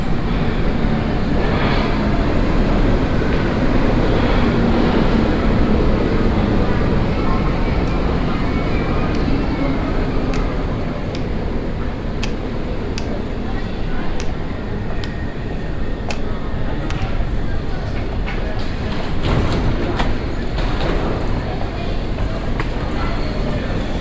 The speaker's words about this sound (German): Am Bahnsteig 2 fährt gerade die U2 Richtung Messestadt München ein.